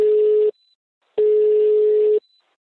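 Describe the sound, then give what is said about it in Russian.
A telephone ringback tone plays while an outgoing call rings: two steady, mid-pitched electronic tones separated by a short silence, the first cut short and the second lasting about a second. “для пущей ясности я сейчас позвоню Егору и постараюсь объяснить ему своими словами то, что вы только что слышали”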